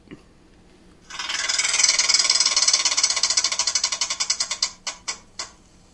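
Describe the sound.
A prize wheel spins with a fast, loud whirring rattle of ticks that starts after a second of near quiet. The ticks gradually slow, the clicks spacing farther apart until a few last separate ticks end the spin.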